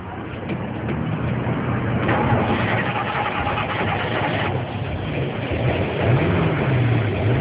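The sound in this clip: A car engine starting and then running, a loud, steady mechanical rumble and whirr that holds an even level throughout with no pauses.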